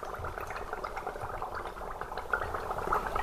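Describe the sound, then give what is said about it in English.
Faint, steady bubbling from Sarsfield Stout fermenting in a small-batch fermenter at a brewery, where yeast eats the sugars in the wort and releases CO2. It is a continuous soft fizz and patter of small bursts. “So you're looking at one of our small batch fermenters. This is our Sarsfield Stout actually fermenting currently, and that bubbling noise you hear in the background is the yeast eating the sugars that are in suspension in the wort or the beer and producing CO2.”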